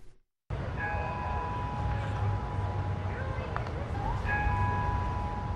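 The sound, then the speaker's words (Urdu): Church bells ring in Orlando: sustained tones hang steadily after a brief silent gap, with a fresh strike layering in near the end over a low rumble. “Plus night club میں عمر متین کی جانب سے shooting کے ٹھیک ایک ہفتے بعد Orlando میں چرچ کی گھنٹیاں بجائی گئیں”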